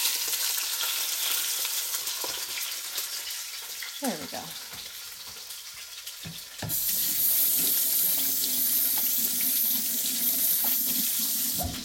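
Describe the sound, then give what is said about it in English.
A kitchen tap runs while hands are rinsed and washed, making a steady rushing hiss with splashy shifts over the sizzle of frying food; the water flow grows louder and fuller about six seconds in. “I rinse and wash my hands a lot when I cook.”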